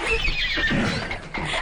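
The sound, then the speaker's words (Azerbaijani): A horse neighs in a loud, drawn-out whinny that wavers in pitch and stands alone without speech. “Hani mənim atım? Hani mənim atım? Atınız hazırdır sultanım.”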